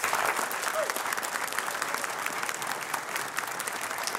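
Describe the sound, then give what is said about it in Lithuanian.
An audience applauds a comedian's entrance with dense, steady clapping that eases slightly toward the end. “Ponės ir ponai, pasitikime plojimais. Komikas, vertėjas, protmušio entuziastas Paulius Ambrazevičius.”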